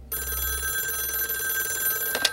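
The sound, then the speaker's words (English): A telephone rings at night with a continuous, steady electronic tone, fairly faint, and a brief click or rattle just before the end. “I turned 16, and one night the phone rang and awoke us.”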